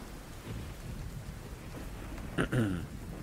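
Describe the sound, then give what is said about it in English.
A rain and thunder storm: a steady, faint hiss of rain with a short, louder burst of sound near the end. “Can see that it's storming out. All right, you guys can wait until the storm passes.”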